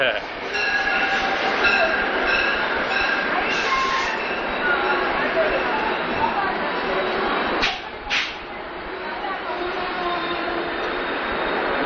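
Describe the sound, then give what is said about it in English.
A train pulls into a station with a loud, continuous rumble and steady high screeching tones. Two short, sharp bursts stand out near the end, and voices are mixed in. “There it is. There it is. Here's the train. Here comes Mr. Train.”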